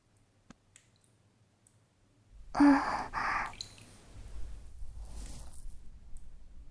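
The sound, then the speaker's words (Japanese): Ears are wiped with a cloth and hot water: a soft, breathy burst of cloth rubbing, then quieter, continuous damp rustling and squishing, preceded by a few faint clicks in near silence. “では、まずは、お耳を拭いていくね。お湯がいっぱいあるって便利だよね。”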